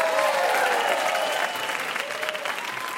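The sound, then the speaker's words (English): A quiz show audience applauds a contestant, clapping loudly and steadily at first, then easing slightly while continuing to the end. “Another round for Susan,”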